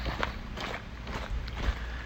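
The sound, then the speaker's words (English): Footsteps of someone walking in a park with a buddy, many faint, steady crunching steps in an even rhythm over soft outdoor background noise. “Walking in the park with my buddy again.”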